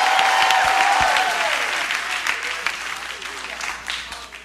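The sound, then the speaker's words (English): A church audience applauds with sustained hand clapping at a revival night service in West Virginia. The dense, loud clapping runs throughout, easing off slightly toward the end, with some voices mixed in. “Give the Lord a mighty hand clap.”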